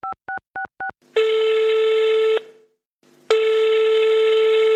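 Four short touch-tone beeps dial a telephone number, followed by two long, steady ringing tones separated by a brief silence as the call rings out.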